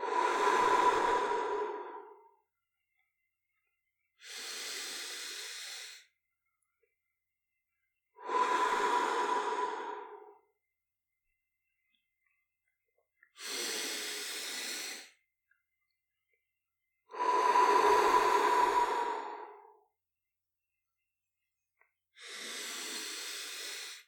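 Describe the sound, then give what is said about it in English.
Slow, deep breathing in and out during a guided meditation: six long, airy breaths, each lasting a few seconds and separated by quiet pauses, with no talking. “And we breathe in deeply. Breathe out slowly.”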